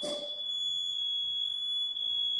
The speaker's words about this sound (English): This is the realest you can get. This is a motherfucking smoke detector. It's real.